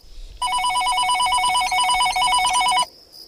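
A telephone rings once with a loud electronic bell: a rapid, high trill that lasts about two seconds and then stops.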